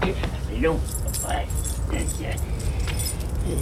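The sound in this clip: Keys jangle and rattle in a frantic search for lost keys, a busy metallic clatter that runs nearly without pause, with a brief voice sounding near the start.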